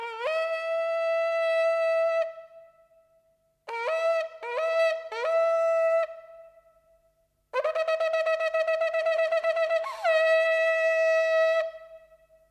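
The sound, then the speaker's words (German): Ram's horn shofar blown for the Jewish New Year: a long sustained blast, then three shorter blasts, a rapid run of many staccato notes, and a final long blast. The tones are loud, brassy and alone, with no talk. “Was Sie da gehört haben, ist das Widderhorn, das Shofar.”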